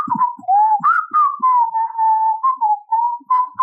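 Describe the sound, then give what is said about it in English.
A person whistles a cheerful, wandering tune while strolling through a boneyard, the clear, loud whistled notes gliding up and down in short phrases with brief gaps between them. “wanders the boneyard, whistling, weirdly happy and optimistic in such a depressing place”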